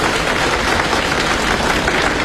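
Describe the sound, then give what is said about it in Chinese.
An audience claps to welcome a contestant at a stage challenge contest. The applause is a dense, continuous roar of many hands, loud and even from start to finish. “大家鼓掌欢迎。”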